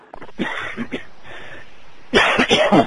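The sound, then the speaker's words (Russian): Coughing into a telephone handset: a few rough, muffled coughs followed by a louder, more prolonged burst of coughing, with no speech. “Взял трубку, чтобы покашлять.”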